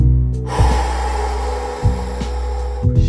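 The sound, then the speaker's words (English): Long, forceful exhale in a breathwork exercise, a steady breathy rush lasting about two seconds over a low, constant hum. “Inhale. Big exhale.”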